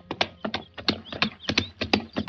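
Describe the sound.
Horse hooves clip-clop at a steady, brisk pace, a run of sharp knocks with no talk.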